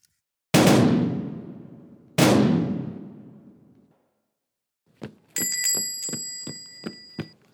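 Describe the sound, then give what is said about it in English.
Two loud gunshots ring out about a second and a half apart, each a sharp bang with a long fading tail. After a pause comes a quick run of bright, ringing bell-like strikes. “He has a gun!”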